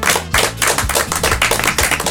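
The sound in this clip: Quick, dense clapping in a studio as applause for an editor, a brisk patter of hands that continues throughout.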